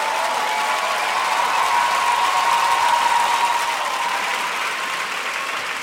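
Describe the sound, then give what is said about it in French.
Standing ovation applause from a concert audience after a music awards showcase performance in Paris: thick, sustained clapping that swells slightly midway and then eases a little toward the end. “sortie de scène et standing ovation”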